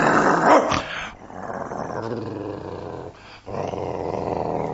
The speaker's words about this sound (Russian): Ну и собака.